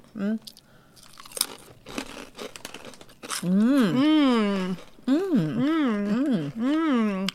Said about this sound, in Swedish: Det här är något blått chips.